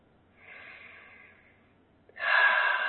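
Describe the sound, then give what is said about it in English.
A deep breath taken during a relaxation exercise with eyes closed and shoulders loose: a soft, slow inhale, a short pause, then a louder, airy exhale that continues to the end. “Nice deep breath.”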